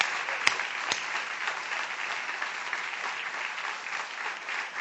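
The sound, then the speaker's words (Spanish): Applause from a theatre audience: dense, sustained clapping that holds at an even level for the whole stretch, with a couple of sharper claps standing out near the start. No voices are heard. “Vamos a aprovechar el envión de estos aplausos para dirigirlos a Patricio Barton.”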